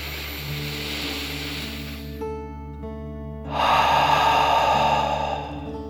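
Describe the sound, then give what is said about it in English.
A deep breath is drawn in and let out during a calming children's relaxation exercise, heard as two long, airy swells of breath over a soft, steady musical drone. “And let's take another deep dragon breath, in and out.”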